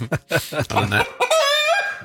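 A hen clucking: a run of short, sharp clucks, then a longer, drawn-out squawking call at the end.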